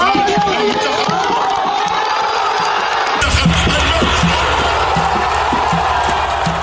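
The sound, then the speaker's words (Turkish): A crowd in a Gaza street cheers Egypt's World Cup penalty-shootout win, watched on a giant outdoor screen. A loud, continuous roar of shouts and whoops runs throughout, and a deeper rumbling layer joins partway through. “Gazeliler Mısır'ın Dünya Kupası maçını sokakta kurulan dev ekrandan izledi. Mısır'ın galibiyeti Gazze'de büyük coşkuyla kutlandı.”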